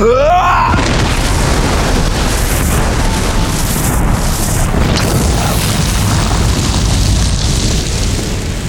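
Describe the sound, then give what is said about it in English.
A blast from a handheld device that emits a signal pulse and flares blindingly bright. A rising whoosh opens into a loud, steady roaring rumble that fills the whole stretch without letting up. “Kane had been hauled behind cover by Bridget, and he rode out the blast in her arms.”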